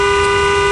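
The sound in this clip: The same car horn heard from a bike sounds as a single loud, sustained blast, brash and steady in pitch without a break.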